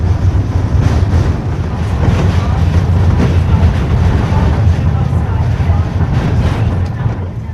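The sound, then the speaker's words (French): Steady rumbling noise inside a small mountain train heading toward the Mer de Glace, a loud, continuous roar with a wind-like hiss running throughout. “là on est dans le train, dans le petit train qui prend la direction de la mer de glace”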